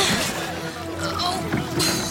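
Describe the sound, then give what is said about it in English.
Oars splash and churn as a rowing boat is pulled through water in thick fog, a steady wash of water noise broken by a few sharper strokes. “I think we're safe. Keep rowing.”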